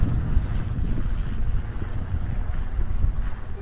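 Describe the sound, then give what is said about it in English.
Strong wind buffets outdoor microphones on a windy coast, making a continuous low rumble with uneven gusts. No speech is heard. “Good test for these mics, because I don't know, but I haven't really tried them in a good old wind.”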